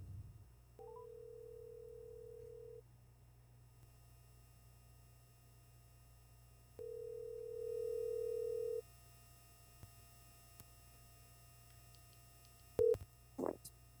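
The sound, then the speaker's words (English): Ringback tone of an outgoing phone call to a co-host: two steady two-second tones separated by a pause, over a faint low line hum, with a few sharp clicks near the end as the line connects. “how about we get our first guest caller on the line here? Let's give my co-host a call.”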